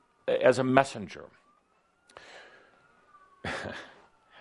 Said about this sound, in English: Calder was asking me the other day, why are there always sirens when you're talking, Adamus? You shouldn't ask those questions, Calder, because look what you get.